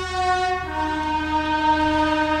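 A train horn sounds as a train leaves a station: a loud, rich, chord-like blast held steadily for about two seconds, dropping slightly in pitch early on.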